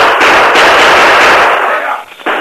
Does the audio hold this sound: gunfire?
yes

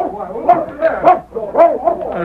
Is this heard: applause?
no

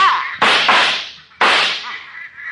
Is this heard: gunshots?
yes

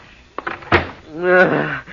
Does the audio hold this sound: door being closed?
yes

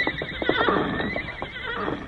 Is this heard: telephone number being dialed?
no

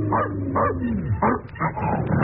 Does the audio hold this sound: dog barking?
yes

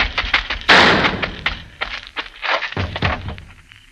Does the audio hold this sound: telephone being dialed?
no

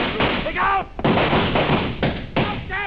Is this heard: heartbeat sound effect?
no

